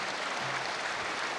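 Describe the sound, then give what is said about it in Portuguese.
An audience gives brief applause for an international delegation at a formal session of a small farmers' movement, a short, even burst of clapping. “peço uma salva de palmas à delegação internacional que está aqui”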